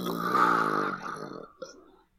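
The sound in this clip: A belch, one drawn-out, low, rasping burp that holds steady for about a second and a half, then tails off into a brief, softer gurgle.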